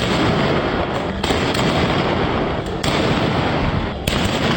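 Gunfire from police shooting into the air during a clash with protesters in Karachi, where tear gas was also used: loud, dense, continuous crackling with no clear gaps between single shots, and no talk.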